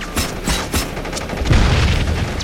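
A cooked grenade explodes amid gunfire in a combat scene: a few sharp, cracking gunshots come first, then a heavy low rumbling boom swells and lingers to the end, with no talk.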